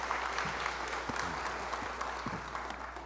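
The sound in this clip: Applause from a church audience welcoming a guest speaker: steady, dense clapping that holds evenly for the whole stretch without a clear break.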